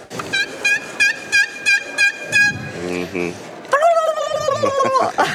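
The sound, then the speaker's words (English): A strutter box turkey call plays a run of short, bright, evenly spaced yelps, then a brief lower, raspy passage, then a louder and denser run of calls. “the turkeys don't seem to be doing a ton, but this strutter box here, man, when I hit this thing,”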